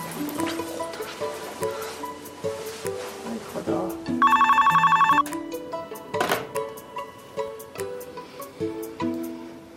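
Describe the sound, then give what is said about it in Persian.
A telephone rings unanswered, giving one burst of rapid, bright bell-like trilling that lasts about a second. People talk around it, with other scattered knocks and sounds. “نه بابا جواب نمیده، میگیره جواب نمیده.”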